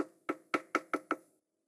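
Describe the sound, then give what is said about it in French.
Knocking on a door: five quick, evenly spaced raps in a short burst, followed by silence. “frappa à la porte”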